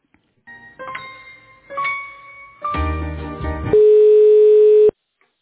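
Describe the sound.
Telephone line tones play while an office call to an internet provider's customer is being transferred: a few short chirping tones, then a dense buzzy burst, then one loud steady tone lasting about a second before cutting off abruptly. No one speaks.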